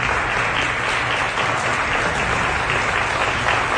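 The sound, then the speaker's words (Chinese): Standing ovation from an audience at a talk, a dense, steady roar of many hands clapping that stays loud and even throughout without a break. “在场的人无不起立鼓掌，久久难以平息。”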